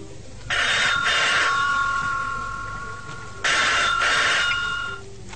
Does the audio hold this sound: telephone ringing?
yes